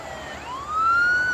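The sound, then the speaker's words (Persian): A police car siren approaches from afar on a road, its single wailing tone rising in pitch and growing louder midway through, with no voices. “دو تا ماشین پلیس از دور نزدیک میشن.”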